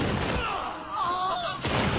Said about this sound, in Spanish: los españoles replican con fuego de artillería.